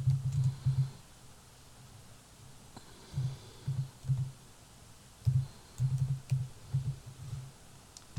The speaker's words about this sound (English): And you all hear me type in.